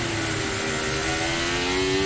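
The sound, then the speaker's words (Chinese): A Formula 1 race car engine heard onboard at full throttle through a narrow section of low-speed corners gives a loud, steady, high-pitched mechanical whine that climbs slightly in pitch, with no talk. “这是汉密尔顿的车载，这边呢相对来说比较窄，都是一些低速弯，这边可以开全油了。”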